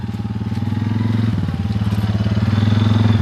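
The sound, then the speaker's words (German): A four-wheeled off-road quad bike on a moorland sheep pasture drones with a low, throbbing engine putter that dips briefly in pitch midway and then steadies, growing slightly louder toward the end. “Mitarbeiter Till Hatjanik kommt mit dem Quad angefahren, einem Geländemotorrad mit 4 Rädern”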